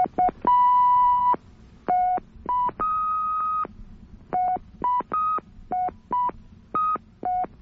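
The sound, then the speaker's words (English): Touchtone phone keypad tones play a quick tune, many short beeps stepping between a few different pitches in a brisk, uneven rhythm, with a few longer held notes early on. “I got a touchtone phone here. Uh-huh. And if you push more than one button down at the same time, you get a sound like this. Okay? Uh-huh. Now I can play a little tune here really fast.”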